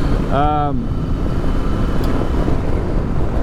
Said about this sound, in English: Did not take that corner all that well, but that's okay.